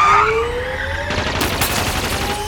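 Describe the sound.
Gunfire breaks out in a dense, rapid burst of sharp cracks that follows a short stretch of engine-like noise and keeps rattling loudly to the end.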